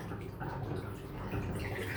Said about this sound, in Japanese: 一旦お湯を流す